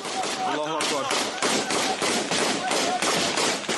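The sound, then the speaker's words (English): Rapid gunfire from rebels firing frantically while running through green fields: dense, loud bursts of cracking shots come in quick succession, with a voice briefly audible among them. “Activist footage shows rebels running through the green fields of Mera, firing frantically”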